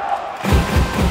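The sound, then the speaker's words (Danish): NFH handball fans in the arena roar as their team attacks. A quiet murmur gives way suddenly to loud crowd cheering, with a few heavy, low thuds in the mix. “så når NFH er i angreber, der er, de er, du ved, så kommer det her.”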